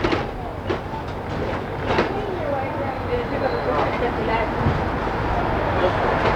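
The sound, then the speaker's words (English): An elevated city train passes overhead with a continuous rumbling roar and clattering wheels, steady in level throughout, with a voice talking over it. “And right above our heads is the very famous elevated train line, or as us locals call it for short, the L. This is the same train that makes the loop around the city,”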